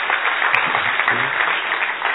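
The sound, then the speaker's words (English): Warm audience applause for participants at a stage event, a dense, even wash of many hands clapping that holds at a steady loud level throughout. “Okay, everybody, a warm round of applause to all of you and everyone over here who has been participating on this stage.”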